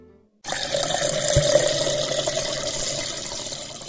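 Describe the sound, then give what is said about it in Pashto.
Water is poured out for someone to drink: a steady, hissing, splashing stream starts abruptly after a brief quiet and runs to the end, with one low knock partway through. “ښه ښه، اوبه در کوما.”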